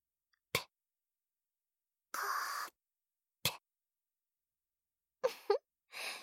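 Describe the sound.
A voice makes faint spitting sounds into someone's mouth: a few short, wet bursts separated by silence.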